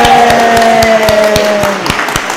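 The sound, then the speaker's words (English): An audience claps and cheers on cue for a presenter. Steady rhythmic claps sound beneath a drawn-out cheer that slides downward in pitch. “So when you see this sign, I want you all to cheer and clap. Are you ready? Make some noise!”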